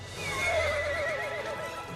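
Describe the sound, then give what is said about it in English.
A horse whinnies, one of the dancing horses, with a shaky, wavering high neigh that holds for about two seconds over a steady low rumble. “Are those dancing horses?”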